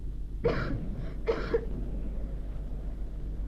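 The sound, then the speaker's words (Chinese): A woman coughs, two short bursts and a fainter one between them over steady low hum, then quiet; no talk. “海伦的咳嗽声声都震动着我那颤抖的心，这咳嗽声比雷声还要响。”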